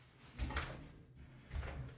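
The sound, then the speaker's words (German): A door being shut gives two soft, muffled thuds about a second apart, faint against near silence. “So, ich musste mal gerade die Tür zumachen.”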